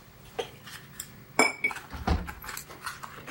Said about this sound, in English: Agnes pulls a tray of ice cubes out of the freezer